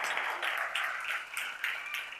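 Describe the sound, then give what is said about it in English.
Audience applause at a church gathering celebrating a new launch in Chelsea: a fairly faint, steady patter of clapping hands that holds throughout without any voices. “Yeah, that's worth clapping.”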